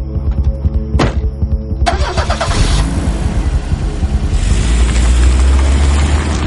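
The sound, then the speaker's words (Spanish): A Volvo car's engine starts: a short burst of starter cranking catches into a loud, throbbing running engine that holds a steady rumbling idle and grows slightly fuller toward the end. “La deja en los asientos traseros del Volvo. Él se pone al volante.”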